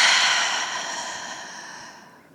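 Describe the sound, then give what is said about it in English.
A deep breath released after an inhale through the nose, heard as one soft, airy hiss that starts fairly strong and fades steadily over about two seconds. “Let's take a deep breath together. You ready? Breathe in through your nose. Now release it.”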